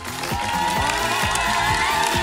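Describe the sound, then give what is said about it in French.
Studio audience applauding and cheering, with scattered whoops in a steady, dense wash of clapping that plays together with loud music. “applaudissez-vous aussi, vous avez été un public super, écoutez les gens chez vous, écoutez”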